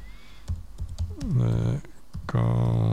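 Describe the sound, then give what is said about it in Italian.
Keys clatter on a computer keyboard as a YouTube search is typed: a few quick, light clicks at first, then a person speaks over the sparse tapping. “intanto entriamo su YouTube e dentro YouTube scrivo The Council”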